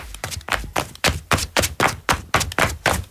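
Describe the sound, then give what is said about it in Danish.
Flip-flops slapping in summer: many crisp, evenly spaced slaps follow a brisk walking rhythm, each a bright smack with no talk over it. “Men bare roligt, det er bare lyden af klipklapper.”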